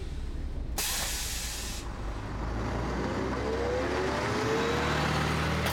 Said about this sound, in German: Die Busse fahren stündlich, immer um 9 nach. Nächste Haltestelle, Versuchsmond.